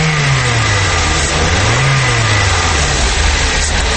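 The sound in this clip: A car engine revs as the driver accelerates: a loud, continuous roar that holds steady throughout, with its pitch swelling and dipping partway through. No voices are heard.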